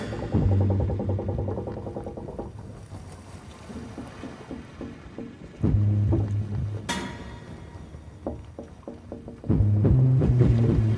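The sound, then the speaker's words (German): Creaking and washing sounds of a wooden merchant sailing ship at sea, the Grand Saint-Antoine, bound from the Levante for Marseille with a hold full of fine cloth, over steady low droning tones that swell louder at a few points. “Es fährt ein Schiff über die weite See und schaukelt bald brennend in den Wellen.”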